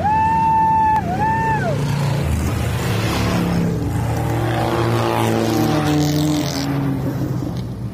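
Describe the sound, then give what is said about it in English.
Race cars roaring off the line on an oval track at the start of a crew members' race after a warm-up lap, a loud, continuous multi-engine drone. A brief tone dips in pitch near the start. “it's time for the pitman race, where crew members get their turn behind the wheel. After a warm-up lap around the oval, they're off.”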